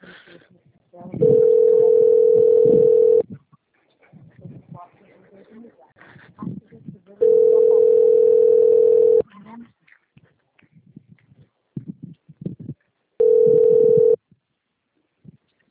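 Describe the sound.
Phone tones sound while a call is being placed: three steady, even-pitched beeps about two seconds long, spaced by pauses in which people talk.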